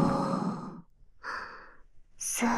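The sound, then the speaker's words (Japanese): Deep breathing: three breathy sounds separated by short pauses, the first and last carrying a soft voiced tone, the middle one quieter and airier. “深呼吸。”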